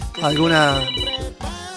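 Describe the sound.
A telephone ringing with a melodic ringtone, a loud tonal phrase rich in harmonics that runs continuously and then breaks briefly before resuming.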